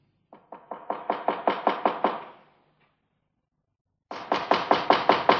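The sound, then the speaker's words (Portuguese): Knuckles knock on the door of a chocolate candy house in two bursts of many quick, evenly spaced, hollow raps, separated by a pause of about a second and a half, with no talking. “Maninho, bate na porta.”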